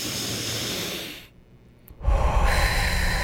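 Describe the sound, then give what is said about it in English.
A deep breath drawn in through the nose during a guided relaxation breathing exercise: a soft, airy rush of air that drops to a quiet pause, then swells into a louder, steady breath. “we're going to get 3 deep breaths in 3, 2, 1. Through the nose.”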